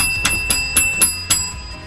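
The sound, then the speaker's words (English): A bell rung in a radio studio: five bright, sharp strikes in an even, quick rhythm, each leaving a clear, sustained high ringing tone. “We've walked in to ring the bell.”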